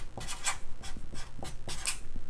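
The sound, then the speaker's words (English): A pen or marker draws a diagram in several quick, scratchy strokes, with short pauses between them. “So the correlation between identity and habit is like a feedback loop. So let me draw this out for you.”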